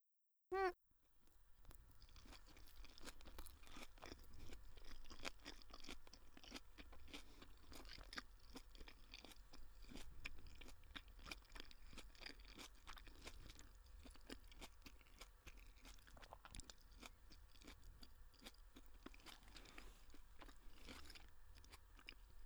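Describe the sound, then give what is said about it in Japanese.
Someone eating an oversized homemade portion of crunchy fried rice: faint, continuous crisp crunching and chewing with many bites in a steady rhythm. “ちょっと作りすぎちゃったある。でも最後まで食べるね。”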